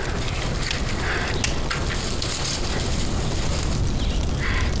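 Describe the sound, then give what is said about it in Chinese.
Firewood burning in a stove: a continuous crackling hiss with scattered sharp pops and snaps, steady in loudness throughout. “行了行了，你别弄了啊，烧的不错，就是浪费柴火。”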